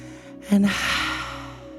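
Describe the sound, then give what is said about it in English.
A deep breath drawn in during a guided gratitude meditation: a sudden sharp inhale, followed by a long, steady, breathy rush of air that gradually fades. “close the eyes, and take a deep breath. Really fill up your belly, expand.”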